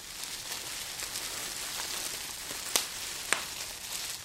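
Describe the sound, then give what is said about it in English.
Latke batter of shredded potatoes frying by the scoop in oil in a pan on the stove: a faint, steady sizzling hiss with two sharp pops near the end. “After everything looks all shredded up, we fry a little scoop at a time in oil on the stove.”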